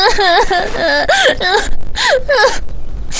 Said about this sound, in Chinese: 别哭别哭